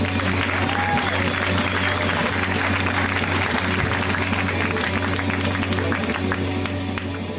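A comedy show audience applauds to welcome a comedian from Boston onto the stage for his first appearance on the show. The clapping is dense and loud, holding steady for about seven seconds.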